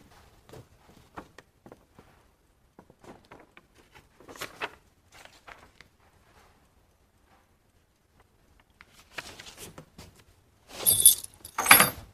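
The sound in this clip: Keys are set down beside a document, with faint scattered taps followed by a louder jangle near the end.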